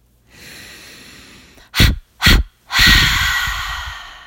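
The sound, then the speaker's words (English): A sharp inhale through the nose, then three forceful 'ha' exhales through the mouth in a breathing exercise. A soft drawn breath gives way to two short, loud puffs and a longer final push of air, with no talk. “I'll do it twice, inhaling sharply and then releasing ha ha ha.”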